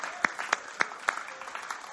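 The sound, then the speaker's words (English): Audience clapping in a church, four sharp, evenly spaced claps ring out first, followed by softer, scattered claps from a few people. “That's a clap.”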